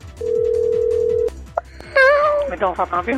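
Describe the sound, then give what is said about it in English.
A telephone being dialed: a steady tone holds for about a second, followed by shorter tonal sounds of varying pitch. “Who's dialing?”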